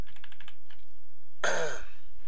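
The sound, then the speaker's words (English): Typing on a computer keyboard, entering text into a text box: a quick, even run of several light clicking keystrokes near the start, then a pause. “if I was just to quickly type in that box”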